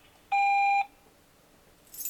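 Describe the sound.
A voicemail beep: a single steady electronic tone lasting about half a second, clear against a quiet background hiss, with the line going silent afterward apart from faint noise.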